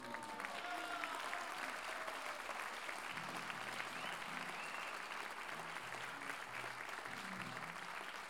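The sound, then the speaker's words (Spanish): Audience applause fills a folk-music gathering of improvised sung verse, with dense, steady clapping from a crowd. The applause holds at an even level for the whole stretch without a clear build or fade. “Así que, de verdad, y muy de corazón, pedí un aplauso enorme.”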